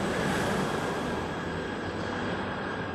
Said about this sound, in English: Excuse the helicopter. Close. What the fuck? That shit low.